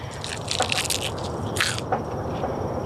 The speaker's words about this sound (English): Like you could hear how like crisp it is when we pick it. Okay, I'm gonna give it a little taste now.